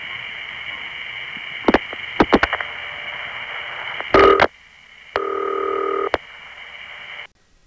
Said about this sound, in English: My crossbar 5 MFs 10 digits to New York 7, which MFs 7 digits to London, which MFs 7 digits to Windsor, which appears to be dial pulsing 4 digits to the step. You can hear the gonging.